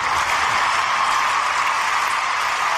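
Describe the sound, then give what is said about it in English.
Studio audience applause, a steady, even wash of many hands clapping at moderate loudness that continues throughout without a break. “that's our studio audience there cheering us”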